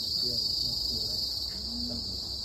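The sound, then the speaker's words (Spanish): Insects chirping everywhere in nature: a dense, steady, high-pitched trill of crickets that continues unbroken and evenly loud, with a faint low rumble beneath. “Aunque realmente no había silencio, había insectos cantando por todos lados. Un sonido intenso, vivo, casi hipnótico.”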